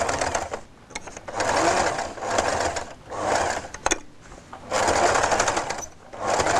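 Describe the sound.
A sewing machine stitches a pressed seam with a narrow topstitch margin, running in several quick mechanical bursts of rapid rattling with short pauses between them.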